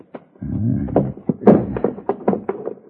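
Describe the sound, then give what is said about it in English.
A gun belt dropped onto the floor inside a house lands with a heavy thunk amid a run of short knocking and shuffling noises, with no voices. “Now, loosen your gun belt and drop it to the floor.”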